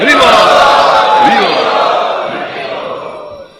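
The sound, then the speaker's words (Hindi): A crowd of devotees at the Sri Radha Vrindavan Chandra temple shouts a welcoming chant in unison. The chorus of voices is loud and sustained, then slowly fades. “आइए हम महाराज जी का यहाँ पर श्री राधा वृंदावन चंद मंदिर में स्वागत करते हैं 3 बार हरि बोल बोलकर।”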